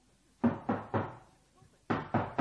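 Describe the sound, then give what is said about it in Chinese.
Knocking on a courtyard door: two groups of three sharp, hollow raps separated by a short pause, loud against an otherwise quiet background. “是敲门的声音”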